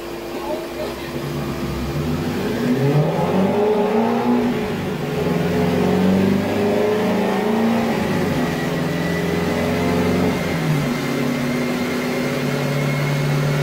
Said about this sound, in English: where am I? I'm watching the car on the dyno.